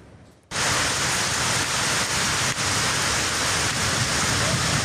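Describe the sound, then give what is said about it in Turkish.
Heavy rain and hail pound down during a storm in Turkey's Black Sea region. A dense, steady roar begins abruptly after a short quiet moment and then holds at an even, loud level. “Karadeniz bölgesinde şiddetli yağmur ve dolu etkili oldu.”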